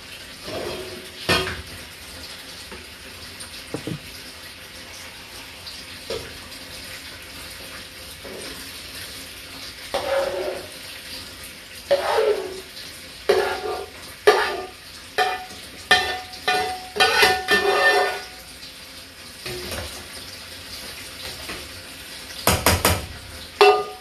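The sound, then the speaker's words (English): Food from a tomato dish seasoned with pepper is moved into a big pan, with clinks, knocks and scrapes of utensils against cookware. Faint at first, the irregular clatter grows busier and louder in the second half, with no talking. “Then I'm going to transfer it to this big pan.”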